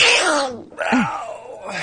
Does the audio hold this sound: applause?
no